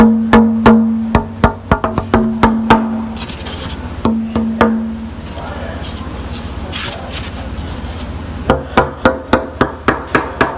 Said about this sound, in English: I'm going to do a little bit of tapping, see if you can hear.